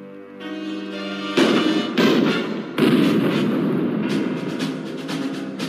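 A gunshot rings out in a Simpsons cartoon scene as baby Maggie shoots Mr. Burns: a sustained tone gives way to a sudden loud blast, followed by further heavy booming bursts that slowly fade.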